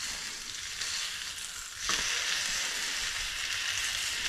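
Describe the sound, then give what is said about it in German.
Bacon fries in a pan with a steady, hissing sizzle that suddenly grows louder partway through and then holds at that level, with no talking. “Dann legen wir den Bacon hier einfach an die Seite. Braten den mit an.”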